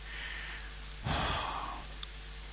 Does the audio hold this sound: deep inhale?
yes